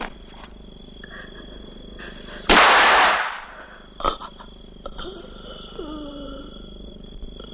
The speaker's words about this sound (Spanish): El hombre agoniza con un disparo en la cabeza.